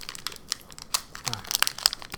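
Crinkly plastic wrapping of a product package being torn open close to the microphone, a burst of sharp, irregular crackles and rustles that come in quick clusters and stay fairly soft overall.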